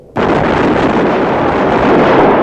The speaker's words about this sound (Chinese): 一班战士手中的步枪开始对天射击